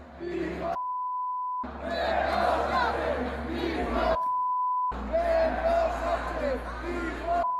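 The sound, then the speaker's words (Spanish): A large crowd at a sports event chants against the Spanish head of government, a loud, continuous roar of massed voices cut twice by a steady, high bleep tone. “actos de aglomeraciones, que de nuevo se volvieron a repetir cánticos contra Pedro Sánchez. Escuchen.”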